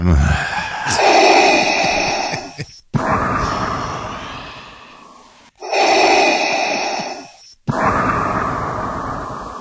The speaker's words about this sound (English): You breathe hard. You always get like, yeah. You start breathing weird.